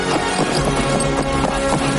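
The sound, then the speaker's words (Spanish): A horse trotting through plants: a steady, rhythmic clip-clop of hoof beats beneath a loud, dense, sustained tonal backing. “Aparta las plantas mientras el caballo avanza al trote en su dirección.”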